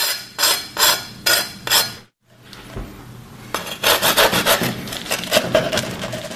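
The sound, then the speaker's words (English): Scraping the crispy toasted crust of a Cuban sandwich: four dry, rasping strokes, a short pause, then a quicker run of many scratchy, crackling strokes. “because people complained I didn't scrape the crust in the Cuban bread video, let's have a little listen to the crispiness before we cut.”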